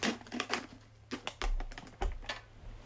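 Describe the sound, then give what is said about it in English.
Opening a can of wavy cut Halo Burger flavored Pringles chips produces faint, crisp crackling and clicking taps in uneven bursts, with no voices. “The Halo Burger Pringles, wavy cut. So I'm going to crack into this.”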